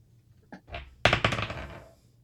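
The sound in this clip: Dice being rolled: a couple of brief rattles come first, then a sudden loud clatter of rapid hard bounces that fade out over about a second as the dice settle.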